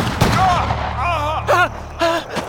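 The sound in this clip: A volley of rifles fired on command, with a few sharp cracks of gunfire breaking through loud shouting voices in the second half.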